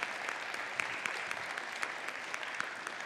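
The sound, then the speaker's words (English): Audience applause welcomes a missionary family onto a stage, dense, steady clapping with scattered sharper claps standing out, sustained at an even level throughout. “This is our ninth and final missionary family that we welcome to Cavanaugh. Give them a big hand as they come, would you?”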